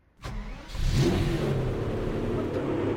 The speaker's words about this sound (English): What's in this thing? Oh, nothing too crazy. Just a little 6-liter V12 turbocharged from an Aston Martin.